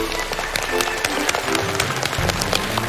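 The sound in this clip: Studio audience applauding on a television talk show: a dense, continuous spread of clapping with many sharp individual claps popping out of the steady roar.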